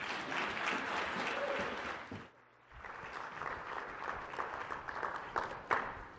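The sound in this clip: Sustained audience applause welcoming a speaker, dense and steady, dipping into a brief lull partway through before the clapping swells back up.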